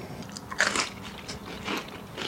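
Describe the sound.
Bite into toasted bread, grilled in a grill pan and topped with grated tomato, olive oil and salt. One crisp crunch comes early, followed by a few softer crackling crunches of chewing, fairly faint overall.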